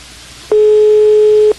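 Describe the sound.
Telephone ringing tone of an outgoing prank call, a single steady beep lasting about one second at a constant pitch, loud over faint line hiss.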